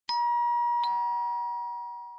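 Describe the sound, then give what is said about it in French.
A doorbell rings with two clear ding-dong chime strikes, bright and ringing, and the second tone sustains and slowly fades with no voices. “On a sonné, c'est elle. Courons ouvrir.”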